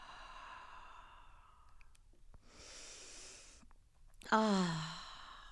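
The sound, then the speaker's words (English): Slow, deliberate breathing, in through the nose and out through the mouth, gives a few soft, airy breaths separated by short pauses. It ends with a louder voiced sigh that slides downward in pitch, all faint and unaccompanied by talk. “So remember to inhale through your nose, hold it, and exhale slowly through your mouth.”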